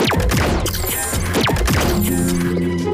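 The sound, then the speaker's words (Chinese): Mechanical transformation noise of an animated vehicle switching into climbing mode: a dense, loud burst of clanks, whacks and whooshing sweeps, ending in a steady whirring hum. “好的，启动登山模式。”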